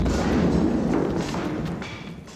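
An explosion that sets off a large fire booms as a dull, heavy, broad rumble and slowly fades over about two seconds, with no voices.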